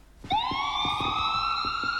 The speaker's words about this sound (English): We know what that is, don't we? You can say it all together if you want to. It's an ambulance. I think it's an ambulance. Maybe it's a fire engine. It's one of the emergency services.